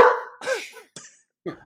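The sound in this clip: A dog barks in a few short, sharp bursts, the first two louder and the last two quicker and thinner, with no other sound in the gaps.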